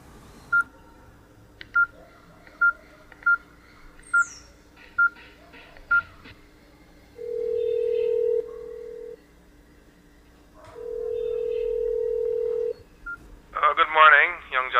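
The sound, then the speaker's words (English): Telephone keypad tones: eight short, evenly spaced beeps as a number is dialed, then two long steady ringback tones, with a voice starting at the very end. “All right, let me call Sergeant Murray.”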